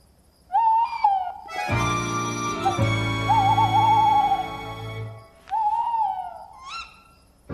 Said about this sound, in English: they re-establish their relationship with a duet of hoots. The male calls first, and with luck, his mate will respond.